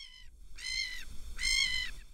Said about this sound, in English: I know you like seagulls, but there's no seagull sound here. Seagulls sound like this.